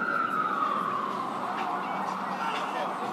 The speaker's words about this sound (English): Looks like the fire department is back in action here. It's an ambulance.